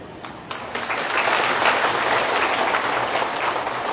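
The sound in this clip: An audience at a spiritual talk on transforming the pain of betrayal applauds. A few scattered claps quickly swell into dense, steady clapping that holds strongly to the end.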